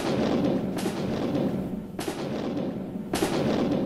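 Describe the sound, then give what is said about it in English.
Artillery fires on a battlefield as American guns shell an attacking British force. Three sharp booms land at regular intervals over a constant, dense roar of battle noise. “They expected the Americans to flee in the face of their strong attack, but the Americans stood firm. Jackson's artillery fired into the enemy.”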